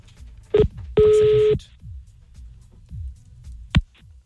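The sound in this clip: Telephone dialing tones as someone calls a listener back: a few electronic beeps, one held longer than the rest, separated by quiet gaps.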